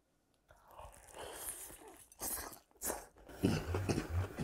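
Crunchy bites and chewing on large pieces of Korean-style fried chicken dipped in seasoned sauce: a few crisp, close bursts of crunching, fairly quiet, with soft breathy sounds between them.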